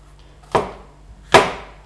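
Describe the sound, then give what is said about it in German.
A knife cuts vegetables into coarse strips about a centimeter thick, two sharp, distinct chops spaced under a second apart, each a crisp thud that fades quickly into quiet. “Die tue ich auch bloß vierteln, beziehungsweise ich schneide sie in ganz grobe Streifen.”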